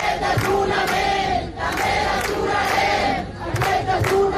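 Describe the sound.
A loud crowd at a protest encampment in Barcelona shouts and chants together in continuous surging waves, with a few sharper cries rising above the mass of voices.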